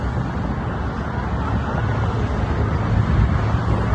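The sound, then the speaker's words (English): Cars roar along a highway during a police pursuit, a constant loud rush of road and wind noise with no voices. “Let's see the highway pursuit. Oh my God, look at this.”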